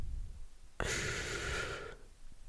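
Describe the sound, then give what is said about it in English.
A single audible breath in, a soft breathy hiss lasting about a second, alone over faint background noise. “Breathe in.”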